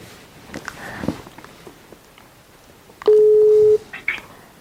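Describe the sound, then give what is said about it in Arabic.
Telephone dialing while calling someone: a few faint, short key beeps, then one loud, steady tone lasting under a second, followed by small soft noises. “انا بكلمه دلوقتي تاني. تمام ان شاء الله هيرد عليا على طول.”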